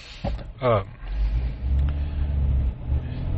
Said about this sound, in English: Got a couple of things today we're going to talk about on the way home whilst driving the Jeep.